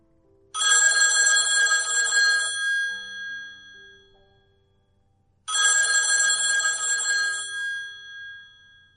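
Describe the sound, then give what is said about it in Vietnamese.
A telephone bell rings in an office, two long, bright, trilling rings separated by a pause of about a second. Each ring sounds loud and steady, then fades away. There is no other sound. “đang ngồi ở phòng làm việc thì có chuông điện thoại.”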